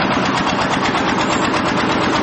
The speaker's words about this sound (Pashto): ځینې بیا د ماشین په وسیله لوړ پورته خښتې پورته کوي.